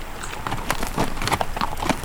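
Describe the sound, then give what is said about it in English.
Horses walking, one of them led riderless, their hooves clip-clopping in a steady but uneven stream of knocks at moderate loudness, with no voices. “They pushed on, with Bert leading Chuck Stilson's now riderless horse.”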